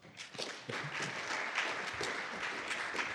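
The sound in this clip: Audience applause welcoming a speaker to the podium: dense, continuous clapping that swells quickly at the start and then holds steady at a full level.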